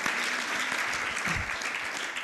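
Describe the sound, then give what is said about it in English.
A church audience claps hands together during a worship service, a dense, steady wash of many overlapping claps that holds at an even loudness from start to end. “let's give God a hand clap for that”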